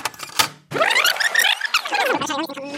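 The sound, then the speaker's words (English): A cassette tape fast-forwards with a whirring, chattering, sped-up sound whose squeaky tones sweep up and then down. It follows a short clicky start and a brief pause. “Hear that fast forward sound? Well, that's what happened to the cassette tape business.”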